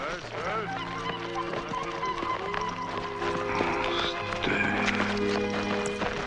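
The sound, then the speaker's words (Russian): A bird cries out while a startled horse's hooves clatter to a halt as riders head back, heard within a dense, continuous mix of other sounds. “Кричит птица. Испуганный конь останавливается.”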